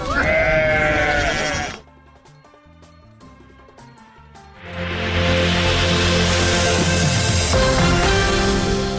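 Sheep and goats belonging to nomadic herders in Kandahar bleat in a few loud, nasal calls at the start. A quieter stretch follows, then dense, continuous noise.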